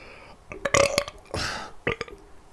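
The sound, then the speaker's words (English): A long, rough burp after eating onion rings, breaking into a few gurgling bursts of moderate loudness, with no talking. “Pardon me. That's an onion rings burp.”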